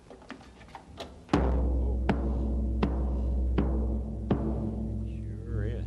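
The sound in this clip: A deep-sounding drum is struck, first with a few lighter taps and then with five heavy booming hits at an even pace. Each hit leaves a low resonance ringing between strokes.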